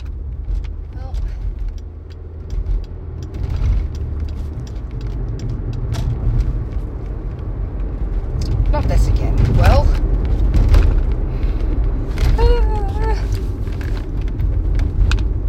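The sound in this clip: Steady low engine and road rumble from a car driving along a multi-lane city road, continuous and fairly loud throughout, with faint voices briefly rising over the drone.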